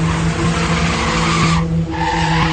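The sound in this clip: Tires screech as a car speeds away, a loud sustained squeal over a steady engine hum that lasts more than two seconds, with a brief dip in the middle.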